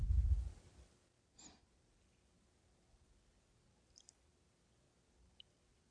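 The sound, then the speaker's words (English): A single deep breath drawn in during a guided meditation: a brief, breathy rush at the start, then near silence broken by a few faint clicks. “Wonderful breath in.”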